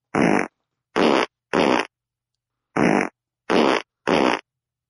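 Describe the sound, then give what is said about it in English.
Six fart sounds in two groups of three, each a short, loud, raspy burst of about a quarter second, with silence between them and no talk. “There it is. So this is one of the best fart feelings that you will ever get in your life.”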